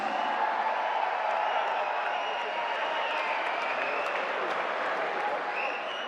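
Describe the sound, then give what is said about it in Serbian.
Sustained audience applause greets a performer on an evening show stage: a dense, even roar of clapping that holds at a steady loudness for the whole clip, with no talking over it. “pozdravimo najvećim aplauzom, jer ona je Milica Jokić!”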